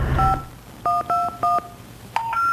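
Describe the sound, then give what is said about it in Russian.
Touch-tone keypad beeps as a phone number is dialed to reach someone's apartment: several short, clear dual-tone beeps in an uneven rhythm, with brief gaps between presses. “Я в десятый раз набираю ее номер.”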